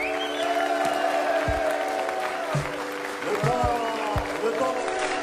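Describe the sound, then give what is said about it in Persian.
Applause and cheering for two boxers after a hard-fought bout: steady clapping from a crowd with a voice over it. “ça mérite encore des encouragements pour ces deux boxeurs qui se sont donnés à fond pendant ces jours de crise.”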